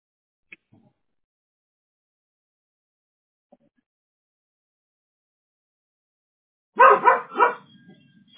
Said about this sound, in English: Excuse my dog.